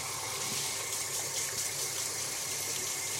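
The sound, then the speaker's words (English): Running tap water rinses brown sugar off hands in a kitchen, a steady, even rush of water that continues unbroken throughout. “Rinsing my hands off.”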